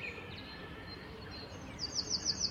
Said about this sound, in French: Le troglodyte. Alors comme ça, ça a l'air sympa, c'est un tout petit oiseau, hein.